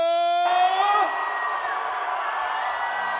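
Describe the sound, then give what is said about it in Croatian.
A concert crowd cheering for a singer of kafana-style hits in a packed hall: a loud, dense roar of screams, whoops and yells holds steady throughout. “Da vas čujemo, najveći vrisak za naše kralja”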